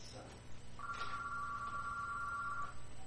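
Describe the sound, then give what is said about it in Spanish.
Telephone ringing on an incoming line: one steady electronic two-tone ring lasting about two seconds over a constant, noisy background. “Vamos a contestar las líneas telefónicas aquí antes de que se nos vayan los clientes.”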